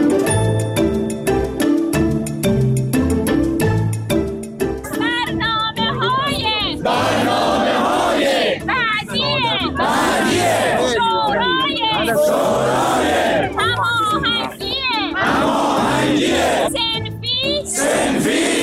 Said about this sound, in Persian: این صدای معلم‌های معترضی بود که برای رسیدگی به وضعیت حرفه‌ای و معیشتی خودشون کمتر از 2 ماه پیش روبروی مجلس تجمعی مسالمت‌آمیز رو برگزار کردند.